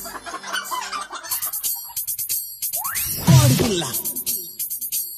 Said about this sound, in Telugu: కోడి కోడి కోడి కోడి కోడి కోడి